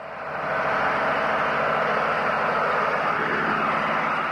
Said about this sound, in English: That's the sound of a high-powered diesel pump sucking 1,000 gallons a minute from the aquifer beneath New Haven.